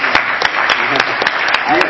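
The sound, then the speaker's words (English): A round of applause, with crisp, regularly spaced claps standing out over a thin, muffled bed of clapping, while a voice talks underneath. “And, you know, that deserves a round of applause for getting this deal done.”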